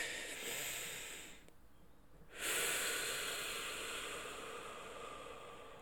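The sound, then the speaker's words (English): Slow, deliberate breathing, heard as soft airy rushes of breath with no speech, paused to calm down during a challenging moment; a steady breath fades into a brief quieter gap before a fuller, louder breath swells and slowly tapers. “So I'm going to take a moment to simply just breathe, and I'm just going to let it roll”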